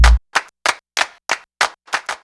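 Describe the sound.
Sharp hand claps in a steady, evenly spaced rhythm, each one crisp and clear with silence between, the first slightly heavier than the rest.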